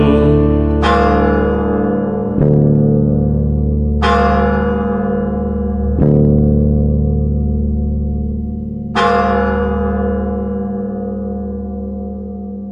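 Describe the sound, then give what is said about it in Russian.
A church bell tolls a death knell in heavy, widely spaced strikes, each ringing out into a long, rich decay that overlaps the next. It sounds loud and unaccompanied, with no voices. “Трижды ударил отходную колокол.”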